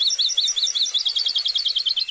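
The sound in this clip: Akeke'e bird song, a present-day recording from a shrinking population: a rapid, high-pitched run of many short, repeated chirping notes delivered in quick regular succession for about two seconds.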